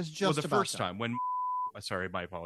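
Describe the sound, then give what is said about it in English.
A censor bleep covers a spoken name: one steady, flat sine-tone beep of about half a second sits between stretches of conversational talking. “Whose name we have just bleeped.”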